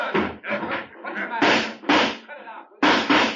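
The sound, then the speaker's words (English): Gunshots ring out in a western radio drama shootout: a few sharp, loud bangs amid urgent, overlapping voices. “You saw him pull a gun on me. It was self-defense. I had to shoot.”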